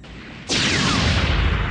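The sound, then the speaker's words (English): Cannon fire striking an energy shield, with plasma spilling off it: a low rumble breaks into a sudden loud, hissing blast that sustains with a thin, falling whine. “The stream of cannon fire hit the energy shield and simply spilled off it like white-hot liquid.”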